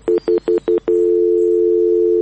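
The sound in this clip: Telephone tones after a call is cut off: four short, evenly spaced beeps, then a steady continuous tone, clear and loud.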